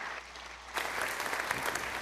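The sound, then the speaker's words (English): A church audience applauds to welcome a guest reverend as special speaker. The clapping begins abruptly after a quiet moment and continues as steady, dense applause to the end. “Everybody give him a hand.”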